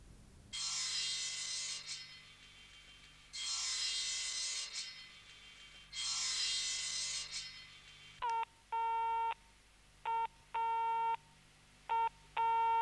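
Telephone line tones on a call after the line is cut off: three long hissing bursts with pauses between, then a run of short, repeated electronic beeps in an uneven on-off pattern.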